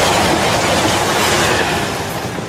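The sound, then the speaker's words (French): A TGV high-speed train rushes past in a loud, unbroken rumble that eases slightly toward the end, ending in a short click, with no voices. “Le TGV, il va enfin s'arrêter.”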